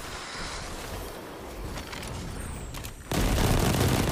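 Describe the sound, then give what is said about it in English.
Gunfire in a Destiny 2 Crucible multiplayer match: a dense, continuous wash of shots and impacts with a few sharp cracks, ending in a sudden, louder surge of noise. “where am I getting shot from?”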